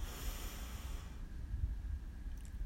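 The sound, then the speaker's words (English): Deep breath drawn in through the nose during a guided breathing exercise, a soft, airy hiss lasting about a second before tailing off into quiet. “And our third and final breath together. Breathe in”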